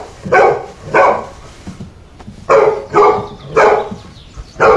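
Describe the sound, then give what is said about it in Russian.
Dog barking from a tied-up dog in a cartoon scene: a series of loud, short barks in separated bursts, with quieter sounds between them. “подходит к привязанной собаке. Ну что ты гав, гав, гав, что ты гав?”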